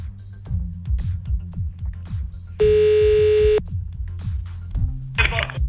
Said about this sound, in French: c'est parti, on y va, on appelle.